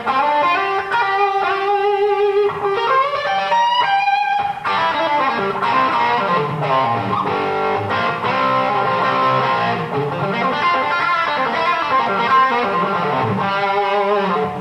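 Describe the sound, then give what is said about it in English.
An electric guitar plays through a pedal board on setting A of a Layla switching box into Bogner and Marshall Silver Jubilee amps, giving a loud, thick, distorted, mid-heavy and dry tone across continuous riffs and sustained chords. “And this particular setting on the Layla box is setting A, and that's just the Bogner and the Silver Jubilee, which is always on. And it sounds a bit like this.”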